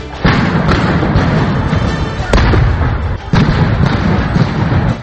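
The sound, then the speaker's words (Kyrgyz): Gunfire during clashes between demonstrators and police outside the government building in Bishkek: a few sharp cracks and thuds punching through loud, continuous, dense noise. “Бишкекте Ак үйүнүн алдында атышуу болуп атат.”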